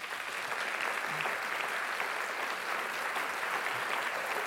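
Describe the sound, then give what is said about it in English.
An audience applauds to welcome a speaker onto the stage at a talk session. Thick, steady clapping holds at an even level for the whole few seconds, with no voices over it. “Please put your hands together to welcome Raj Patel.”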